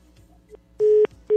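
Busy tone after a caller hangs up on a phone line: two loud, steady mid-pitched beeps, the second cut short, preceded by a faint click.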